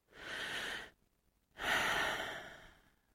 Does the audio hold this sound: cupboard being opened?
no